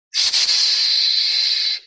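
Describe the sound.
A voice makes a long, sustained hissing "sss" sound, voiced as a healing sound for the lungs. A single loud, steady, high hiss lasting under two seconds, imitating a hiss with the breath.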